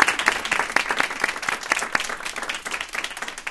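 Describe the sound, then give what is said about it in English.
An audience applauds puzzle contestants after a game round, with dense, steady clapping that eases slightly toward the end. “Guys, give yourself a hand. Give yourself a hand.”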